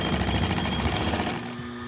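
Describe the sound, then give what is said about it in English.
Sewing machine stitching a strip of fringe onto the edge of a piece of carpet, a steady, rapid mechanical rattle that runs without a break and eases slightly near the end. “Finally, he sews on a strip of fringe to finish the edge.”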